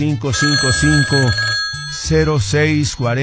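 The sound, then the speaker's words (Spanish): A telephone on a studio call-in line rings in repeated bursts of warbling electronic tones, grouped in quick runs with a short break between them. “ahí está el teléfono, miren cómo estamos contestando oportuna, estamos atendiendo otras llamadas.”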